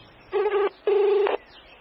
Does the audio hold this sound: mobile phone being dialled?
yes